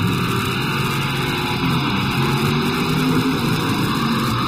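A custom-painted Pontiac GTO's engine runs in a steady, loud rumble with a constant hiss layered over it. The sound continues unbroken from start to finish, with no clear revs or pauses.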